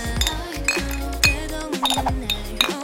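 Glasses of cold beer clink together in a toast, a series of bright, ringing chinks over a steady low background.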